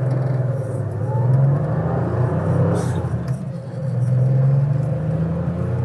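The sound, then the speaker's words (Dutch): Porsche accelerating through gears one to five: a low, steady engine drone and road rumble swell louder twice, easing slightly in between. “nu eens even gaan optrekken. Van 1 naar 5. Kijken hoe dat werkt.”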